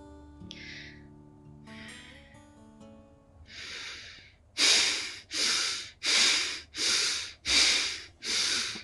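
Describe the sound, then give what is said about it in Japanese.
Bhastrika breathing exercise with rapid, forceful inhales and exhales through the nose. After a few softer breaths come six loud, evenly spaced, whooshing bursts in quick rhythm. “私がここでバストリカやったとしても、あ、なんか呼吸音激しめだねって思うだけな感じで終わっちゃうと思うんですけど、ちょっとやってみますね。”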